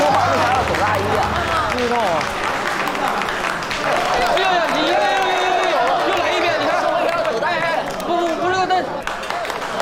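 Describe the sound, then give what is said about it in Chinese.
Warm applause welcomes four directors at a stage event, dense steady clapping running throughout beneath a voice speaking over it. “让我们以热烈的掌声隆重的欢迎四位导演。”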